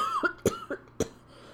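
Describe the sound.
A few short, sharp coughs come in quick succession, fairly quiet, each a brief rough burst separated by short pauses.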